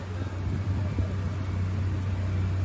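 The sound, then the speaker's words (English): A steady low mechanical drone from food trucks gathered at a roadside outside a courthouse on a trial's first day, with murmured voices beneath. “That sound you hear? That's food trucks”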